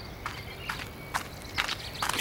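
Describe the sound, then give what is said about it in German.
Faint, quick footsteps of a boy running to a small pavilion, several light, crisp hard-surface taps at an uneven, hurried pace over a soft background hiss. “Der rennt zu dem kleinen Pavillon.”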